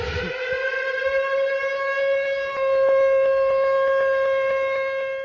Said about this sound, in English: I'm going to hit the panic button. So here we go. I'm hitting the panic button.